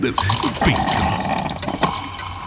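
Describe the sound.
Coffee is poured into a cup, a brief gurgling, trickling stream of liquid with a few small clicks along the way.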